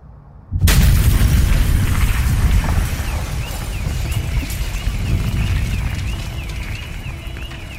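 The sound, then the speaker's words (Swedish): Reconstructed bomb explosion, a sound effect created by sound designer Jonas Sjöberg. A sudden loud blast is followed by a dense, rumbling roar that lasts several seconds and slowly thins out. “Och det var han som skapade ljudet där han rekonstruerade bomben i avsnitt 1.”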